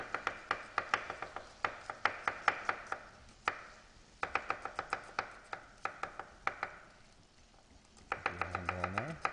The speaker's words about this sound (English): And then I'll chop up this garlic. Get 2 cloves of garlic.